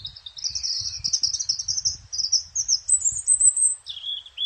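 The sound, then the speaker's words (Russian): A European robin sings a run of high, thin, quick notes that merge into a smoother, slightly higher warbling phrase, then drops to a lower closing phrase. “А у зарянки вот именно вот этот звук как будто... Идут ноты, ноты, ноты, ноты, а потом все вдруг склеивается.”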